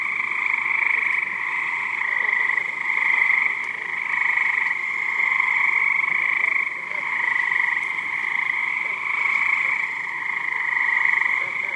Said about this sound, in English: That was the sound of... frogs. The frogs are from New Jersey, and they are cricket frogs.